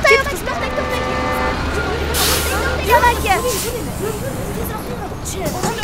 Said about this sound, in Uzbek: Avtobus kelyapti.